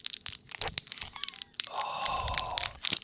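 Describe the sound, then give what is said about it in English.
Plastic wrapping crinkling and tearing as a new board game is opened: scattered sharp crackles, then a longer continuous rip, then a few more crackles, all fairly faint. “I literally just opened it. Here, listen, I'm opening here like that.”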